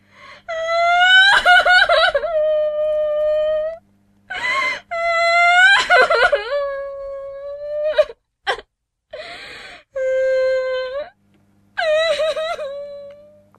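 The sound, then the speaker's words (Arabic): Loud ghostly wailing of a girl crying on a hotel's fifth floor: a series of long, high, wavering wails broken by short sobbing gasps and pauses, with no talk. “النزلاء اللي ساكنين في الدور الخامس كانوا بيقولوا انهم كانوا بيسمعوا في الدور ده صوت بنت بتعيط بصوت عالي.”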